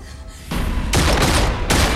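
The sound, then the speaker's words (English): Gunfire during a standoff with a terrorist, a dense burst of many rapid shots that merge into a harsh, continuous crackling rattle, jumping louder in a few steps. “Chris walks towards the terrorist, splitting into multiple expendable Chrises who take the many bullets.”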